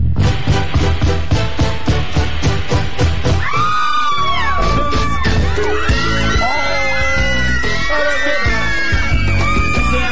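Crowd yelling and screaming at a live stage performance, a loud continuous mass of shrieks and shouts with rapid rhythmic banging through the first few seconds.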